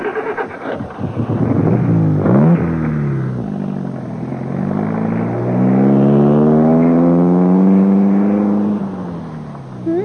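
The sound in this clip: A car engine pulls away as the driver takes a passenger home after an evening out, its harmonic tone rising as it revs, then settling into a loud, steady hum.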